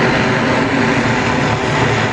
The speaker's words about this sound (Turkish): Çin tarafından geliştirilen elektrikli dikey kalkış ve iniş yapabilen uçan taksi, Astana semalarında başarıyla havalandı.